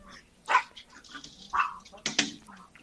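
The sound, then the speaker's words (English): A dog in the room gives a few sharp barks and higher yips at uneven intervals, moderately loud against a quiet background. “My husband just got home, so let me just get the dog out of the room.”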